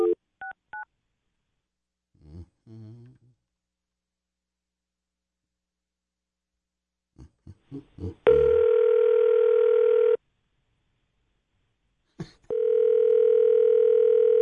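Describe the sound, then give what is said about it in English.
Telephone tones as a call is placed to a cell phone: a few short beeps and clicks, then two long, steady electronic tones separated by a pause of silence. “You want to try and call Michael Ray with the NTTA?”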